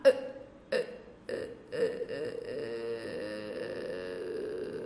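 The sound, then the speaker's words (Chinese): A voice imitates a burp during a singing lesson's warm-up exercise. It gives a few short, croaky, burp-like bursts, then draws one out into a long, sustained, rumbling tone. “第二个，同学们，我们找到打嗝的感觉，拉长。”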